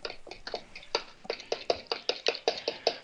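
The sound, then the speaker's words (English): A utensil knocks and scrapes in a bowl while mixing batter of root beer, root beer extract and flour. Many quick, rhythmic strokes come at a fairly soft level with no talking. “Okay, so we've got the root beer in, we've got the root beer extract in. Mm-hmm. We've added our flour. Mm-hmm. Get this all mixed up here.”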